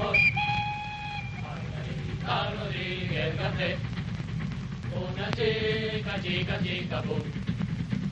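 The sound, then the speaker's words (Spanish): A train whistle sounds near the start as a steady, high, multi-toned blast, then further tonal calls follow over a continuous low rumble of the train throughout. “En el tren de regreso a casa.”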